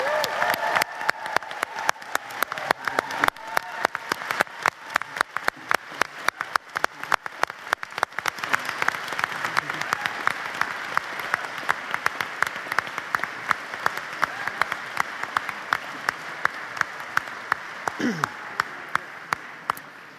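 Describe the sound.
Sustained audience applause for the GSPP class of 2019: a dense, steady wash of many hands clapping, with sharp individual claps standing out throughout.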